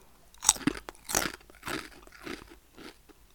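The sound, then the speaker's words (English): Walkers Sweet Chilli Sensations crisps are crunched and chewed close up: several crisp, crackly bites in an uneven rhythm, the first loudest, then softer chewing crunches that fade. No talking. “Just doing a ASMR segment. Today I've got some sweet chili, Walker's sweet chili sensations.”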